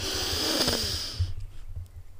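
A long breath is pushed out through the mouth during a calming breathing exercise. The steady, airy hiss lasts just over a second, then cuts off into near quiet.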